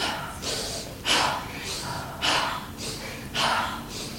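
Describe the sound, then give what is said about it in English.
A person doing a breathing exercise meant to release anger. Rhythmic, breathy inhales and exhales alternate, with three stronger, forceful breaths spaced among softer ones at a steady pace. “your inhale is here. So, exhale, inhale, exhale, inhale, exhale, inhale, exhale.”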